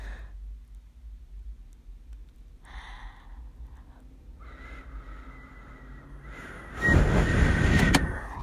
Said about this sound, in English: she's unlocked the car twice, and I'm like, I'm already in the car. You don't need to unlock it.